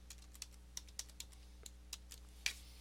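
Typing a password on a computer keyboard: a run of soft, irregular keystrokes, quiet and unhurried, ending with one sharper press.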